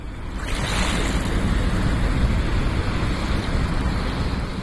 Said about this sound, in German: Der Rhein in Bonn fließt einfach weiter.